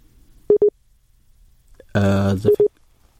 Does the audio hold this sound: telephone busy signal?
yes